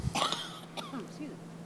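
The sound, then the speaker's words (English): A single short cough bursts out at the start, then a man goes on talking quietly. “So, as I try to cough.”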